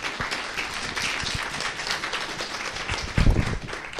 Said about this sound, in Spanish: Entonces, un aplauso